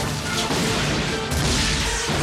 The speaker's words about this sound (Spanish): Cuando Li Shan vio a sus soldados en orden, les hizo apuntar con sus cañones hacia las montañas, desde donde los unos les lanzaban sus flechas y les ordenó disparar. ¡Fuego!